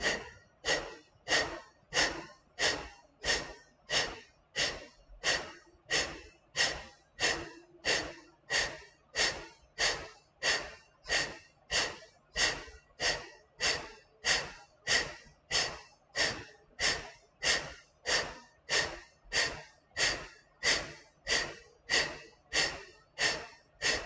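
Forceful breathing exercise with many sharp, rapid exhales pushed out in a steady, even rhythm for the whole stretch. Each burst is strong, with quieter passive inhales between, and no talking over it.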